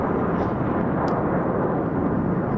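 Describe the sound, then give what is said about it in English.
Blue Angels demonstration planes flying overhead: a continuous, broad jet roar with a heavy low rumble that holds at a steady loudness. “Okay, that's a helicopter, but you hear the background? Planes. Yes. The Blue Angels?”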